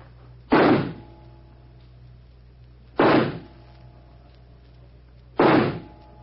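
Three revolver shots fired at a target, each a sharp loud crack with a short decay, spaced evenly a few seconds apart over a low steady hum.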